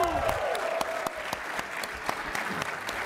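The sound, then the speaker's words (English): Live studio audience applause at PAX East, a dense, steady wash of many hands clapping that holds an even loudness throughout without a break. “I would also like some applause.”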